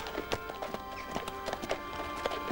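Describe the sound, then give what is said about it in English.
Hooves of a black horse being ridden past a mill, trotting in a dense, steady clip-clop rhythm of many quick beats over a constant background. “Leaving the mill is another rider, Mr. Wakeham, trotting on his black horse. The two men draw nearer. Wakeham slows his horse and makes it stand.”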